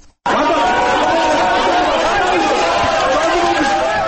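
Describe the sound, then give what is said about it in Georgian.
A courtroom crowd in Tbilisi cheers and shouts at a judge's decision. The roar of many voices starts abruptly and stays loud and dense throughout, with shouts and chatter blended together. “ასეთი ოვაციებითა და შეძახილებით შეხვდნენ მოსამართლე გიორგი დარახველიძის გადაწყვეტილებას დარბაზში მყოფი ადამიანები.”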